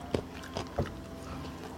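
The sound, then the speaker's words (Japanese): Crunchy chewing of a homemade baked Hamamatsu specialty: three crisp bites land in quick succession, then quieter continued chewing. Fairly faint, with no speech. “食べてるくしゃくしゃした音を聞かせるのもちょっとあれなので”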